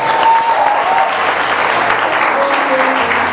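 A church audience applauds during a French-language sermon, a dense, steady wash of many hands clapping together, loud and sustained for the whole clip without a clear break.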